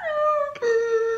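A dog howls on hearing a song, a high, wavering whine in two drawn-out notes: the first slides downward, a brief break follows, then a lower, steadier tone that tapers slightly.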